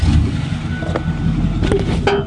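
John's truck engine runs as the drive begins, a steady low rumble that holds throughout with a few faint clicks and knocks above it.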